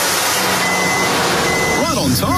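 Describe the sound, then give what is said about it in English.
A truck carrying a load of firewood reversing, two faint steady warning beeps sounding over a loud, continuous engine rumble and broad noise. “It's another top quality load of firewood from Firewood Devils. Check out Taz the Devil on the side of the truck.”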